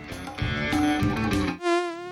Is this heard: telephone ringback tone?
no